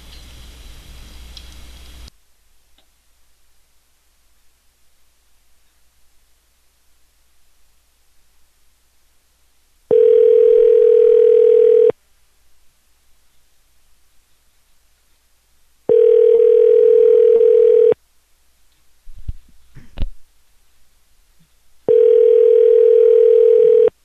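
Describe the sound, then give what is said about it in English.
Ringback tone of a telephone call being placed to return a caller, a short burst of noise, then three steady, evenly spaced tone bursts of about two seconds each, separated by near silence with faint clicks. “All right, let's give this guy a call back.”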